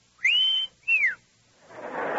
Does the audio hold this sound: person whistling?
yes

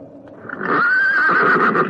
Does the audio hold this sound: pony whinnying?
yes

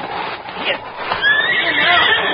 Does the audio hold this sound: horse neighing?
yes

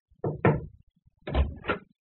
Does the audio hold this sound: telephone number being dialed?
no

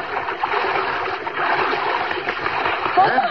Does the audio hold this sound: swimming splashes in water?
yes

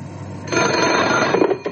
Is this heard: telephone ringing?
yes

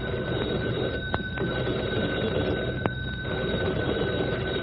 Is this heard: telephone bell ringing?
yes

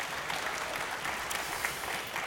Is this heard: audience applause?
yes

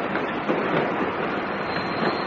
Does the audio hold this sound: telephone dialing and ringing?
no

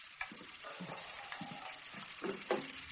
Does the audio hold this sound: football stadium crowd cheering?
no

